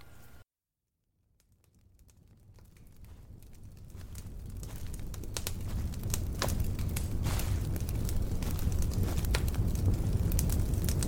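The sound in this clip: Crackling fire ambience fades in after a brief silence. Many sharp pops and snaps rise over a steady low roar and grow louder before holding at an even level, with no voices.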